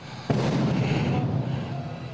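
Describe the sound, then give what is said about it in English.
Pyrotechnics go off at a wrestling show: one sharp blast, then a loud, dense roaring wash that lingers and slowly eases off. “Seth Rollins' pyro goes off in the background on Monday Night Raw”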